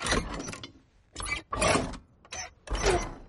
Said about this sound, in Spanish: Abre la puerta de la cabaña.